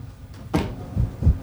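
A chair pulled closer: a sharp scraping burst, then two dull low thuds, moderately loud with no talk over it.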